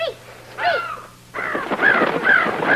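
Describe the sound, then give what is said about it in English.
Crows cawing: harsh, raspy caws, two at first and then several more in quick succession after a brief pause, fairly loud and with no talking. “Hey, Dad, the crows came back, and they're not mad at us.”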